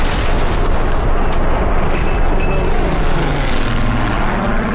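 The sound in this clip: A ceremonial gun salute fired for the death of the Queen gives a deep, dense rumbling roar that stays loud and sustained throughout, with no clearly separate shots.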